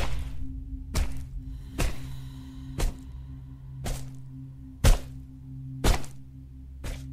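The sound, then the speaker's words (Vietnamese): A wooden log repeatedly beating someone: seven dull, heavy thwacks land roughly once a second over a low, steady hum. “lạnh lùng đưa khúc gỗ lên. Chị trách mày lắm chuyện, mày chết đi. Sau đó hắn đập túi bụi xuống.”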